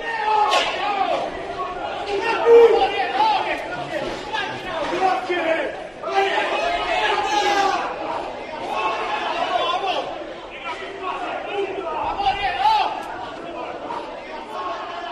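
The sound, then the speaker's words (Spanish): Clamor of a clash between rival football supporters outside a bar, heard from a fourth or fifth floor above: many voices yelling and shouting over each other in a continuous, agitated din for the whole stretch. “un vídeo que está lejano, parece que está grabado desde lo alto de un cuarto o quinto piso, abajo está el bar y se escuchan los sonidos, digamos, del momento del encontronazo entre los radicales de uno y otro equipo.”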